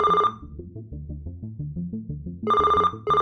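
Ringtone from a phone with caller ID: a synthetic melody of quick, low bubbling notes, broken by bright, high beeping bursts at the start and twice near the end.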